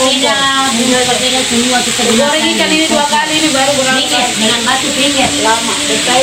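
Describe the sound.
Food sizzles and fries on a stove fuelled by briquettes made from areca-nut and sago waste, a loud, steady hiss that holds throughout with indistinct voices faintly underneath.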